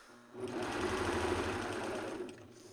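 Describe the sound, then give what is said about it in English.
A serger overlock sewing machine stitching kid leggings starts up, runs as a steady, faint mechanical whir with a rapid underlying chatter for about two seconds, then stops. “Okay, and I am done using the serger now, everyone.”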